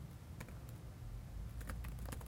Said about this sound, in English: Let me type my password.